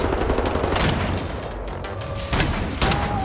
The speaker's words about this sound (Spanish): Ah, escopeta.